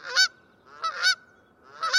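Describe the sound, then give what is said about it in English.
A Canada goose gives three loud, nasal honking calls, spaced roughly evenly, with quiet gaps between them. “Or this familiar cry of the Canada goose.”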